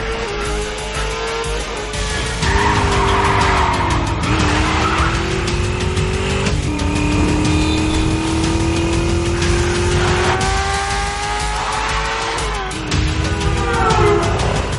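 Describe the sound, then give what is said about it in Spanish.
Tires squeal and engines roar as a Chevrolet car and a motorcycle speed through city streets in an action-film chase, long screeching tones sliding upward over a continuous loud engine drone, with no talk. “El Chevrolet sube por otra calle. gira a la derecha. La moto avanza a toda velocidad.”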